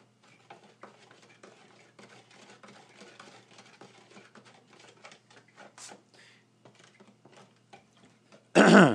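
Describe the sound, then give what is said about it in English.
A spoon stirs crystals into a liquid, making many faint, irregular clinks and soft ticks over several seconds. The stirring ends with a short, loud burst of noise. “So we'll just get a spoon here. Okay, so we'll just stir this up like so.”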